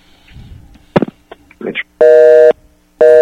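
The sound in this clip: A telephone busy signal on a call-in line, two loud, steady buzzing tone bursts separated by a short pause, preceded by a few clicks and brief handling noises.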